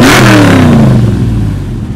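A car engine with a performance exhaust revs loudly in one continuous growl, its pitch sliding downward as the revs fall away, with no voices.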